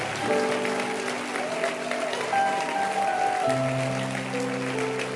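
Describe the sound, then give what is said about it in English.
Church audience applause for online worshippers, a steady bed of many clapping hands over sustained musical chords that shift to a new harmony partway through. “Clap for the online congregation on YouTube, Facebook.”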